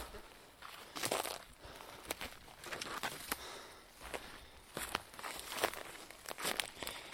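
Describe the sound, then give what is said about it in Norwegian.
Footsteps push through a dense thicket, many irregular crunching, snapping steps mixed with rustling and crinkling of brush, fairly soft and uneven in rhythm. “Nå går vi gjennom et ganske heftig kratt her. Ja, vi kommer oss over et kratt her.”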